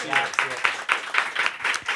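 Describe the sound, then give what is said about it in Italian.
Audience applause during a live stage event, with claps arriving in quick, regular pulses at moderate loudness while a voice talks over them. “Grazie, un applauso.”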